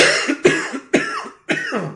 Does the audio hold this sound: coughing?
yes